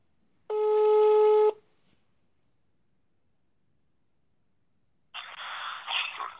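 A telephone placing a call gives one steady, buzzing tone lasting about a second. Silence follows, then a burst of noisy, hissing line sound.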